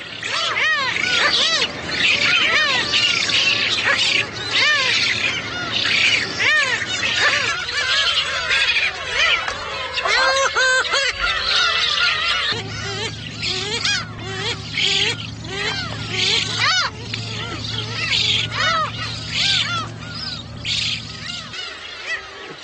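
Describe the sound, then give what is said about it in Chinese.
Bird chicks squabble noisily over food on an island in early summer, an unbroken racket of overlapping squawks and shrill calls, joined midway by a low droning layer. “雏鸟们为争抢食物开始了吵闹。”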